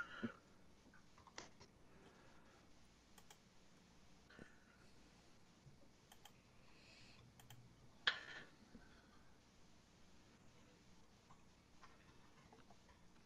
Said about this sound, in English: Yeah, here, I'll type it in Roll20.